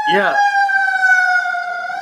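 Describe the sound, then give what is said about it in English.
A siren in a Long Beach street sounds a loud, steady, high-pitched wail. It follows a brief voice at the very start and continues to the end. “If you guys can hear the sirens, that's because we live in Long Beach. That's normal. You hear that? There you go.”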